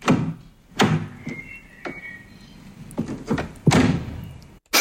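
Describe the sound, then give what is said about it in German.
A car door being opened and shut: several dull thunks and latch clunks at uneven intervals, the heaviest thud coming late, with quiet noise between the knocks. “Richtig, eine Autotür.”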